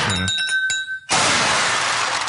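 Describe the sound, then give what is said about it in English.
Glass shattering on the floor: a few bright clinks, a brief near-silent gap, then a loud, sustained crash of breaking shards. “that one shattered all over the floor.”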